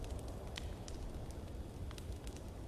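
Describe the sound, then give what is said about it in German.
Soft crackling of a campfire in a video game: sparse, faint pops and snaps scattered over a steady, quiet low hiss, with no voices. “So, Lagerfeuer, gemütlich zurücklehnen.”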